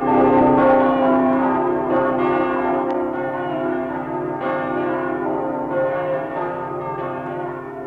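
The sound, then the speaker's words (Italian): Church bells of the Basilica della Madonna delle Grazie in Udine, Friuli, ring in a full peal. Loud, overlapping tones sustain continuously, with new strokes layering over the lingering hum. “le uniche campane del Friuli, salvate dalle razzie nemiche, quelle della Basilica della Madonna delle Grazie, cominciarono a suonare. Suonavano a distesa.”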